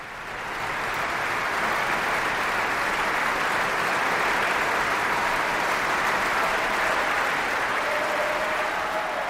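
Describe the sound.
Sustained applause from an audience at the Bayreuth Wagner festival: a dense, even roar of many hands clapping that builds in the first moment and then holds steady and loud throughout.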